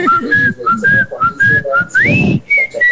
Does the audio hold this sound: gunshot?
no